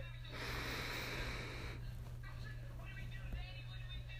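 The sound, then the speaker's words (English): A single long inhaled breath during a guided breathing exercise, soft and airy for about a second and a half, faint over a low steady hum. “So now I'm going to take a moment with you all to do these 5 long deep breaths in and out. So here's breath number 1. Inhale.”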